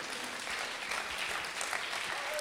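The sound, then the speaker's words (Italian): Congregation applauding during a church service, a dense, even patter of many hands that runs steadily from start to finish without a break. “Fate un applauso a Gesù.”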